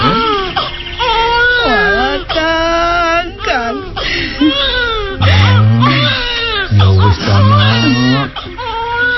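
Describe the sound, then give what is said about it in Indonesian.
A woman cries and wails in distress, with loud, wavering sobbing cries broken by short catches of breath that carry on through the whole stretch. “jangan menangis saja begitu”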